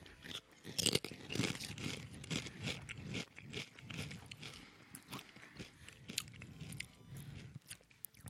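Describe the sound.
Crunching bites and chewing of a ranch-flavoured chip, with many crisp, irregular crackles packed close together. The crunching is loudest early on and continues steadily to the end, with no talk over it.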